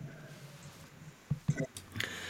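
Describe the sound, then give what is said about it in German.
Sipping of beer: after a quiet stretch with a low steady hum, a few short wet, squishy swallowing and mouth sounds follow in quick succession. “ich muss noch mal einen Schluck nehmen.”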